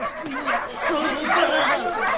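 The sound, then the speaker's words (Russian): Several dogs bark and yelp during a dog race as another dog rushes at them, with sharp, overlapping yips and whimpers mixed with people's voices throughout. “Срок забега истекал. И вот тут на собак налетел Микки.”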